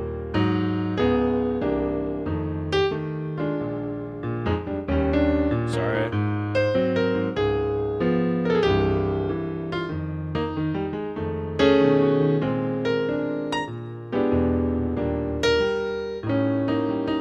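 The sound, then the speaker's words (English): Stride-style solo piano playing, with many notes and chords in a lively, steady rhythm across the passage and no talking over it. “If I decide to play this at more of a stride type of thing, you know, it'd sound like this, right?”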